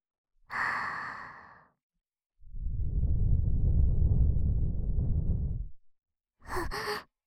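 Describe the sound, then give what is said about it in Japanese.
Gentle blowing into the ear: a soft breathy exhale, then one long, steady, airy blow with a low rumble lasting about three seconds, and a short breath to finish. It is quiet and intimate, with no talking. “耳ふうふうしますね。”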